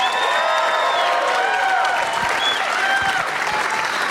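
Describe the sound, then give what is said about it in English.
Live audience applause and cheering at Bumbershoot: loud, continuous clapping with whistles and whoops rising through it, steady from start to finish. “Give him a warm welcome.”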